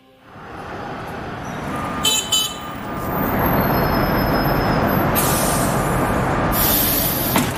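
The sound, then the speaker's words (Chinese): A tram or train starts to move: a broad low rumble swells and stays loud, with a few brief high wheel squeals above it and no voices. “欢迎乘车， 车辆起步，请注意安全。”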